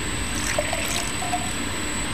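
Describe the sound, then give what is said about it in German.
First wort poured into glasses at a brewery makes a faint, steady liquid trickle, soft and unbroken, with no talk over it. “Ja, so, jetzt gießt du uns mal die Vorderwürze ein.”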